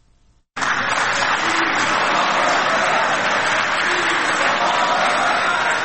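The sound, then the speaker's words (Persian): Applause erupts at a treaty signing ceremony in a five-star hotel hall in Doha. The clapping starts abruptly and holds a dense, even clatter for about five seconds. “این صدای تک تک در هتل 5 ستاره اشراتون دوحه بعد از آن در فضای تالار بلند شد”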